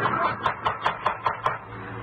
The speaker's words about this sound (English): It was knocking at the door.